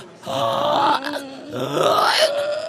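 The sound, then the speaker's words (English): A person makes a pig-like grunting sound on an inhale, as a vocal exercise. There are two drawn-out, rough, voiced grunts with a short break between them. Both are fairly loud. “You can think of it sort of as like making a pig sound”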